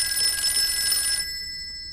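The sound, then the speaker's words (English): A telephone rings with a bright, steady electronic trill lasting about a second, then cuts off, leaving faint low background noise and no voices. “She moves over to the phone and picks up the receiver.”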